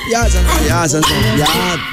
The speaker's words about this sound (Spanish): Ah, porque es un perro.